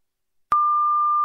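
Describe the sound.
A telephone line tone sounds while a library's number is being dialed, a single steady pitched tone that starts abruptly after a brief silence and holds unchanged.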